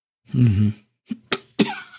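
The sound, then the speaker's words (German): Irritated coughing from a man whose throat is still sore from acrid air at a landfill: one throaty, voiced clearing, then three short, sharp coughs in quick succession, alone without talk. “Ich habe immer noch ein bisschen Reizhusten von der Müllhalde, Entschuldigung.”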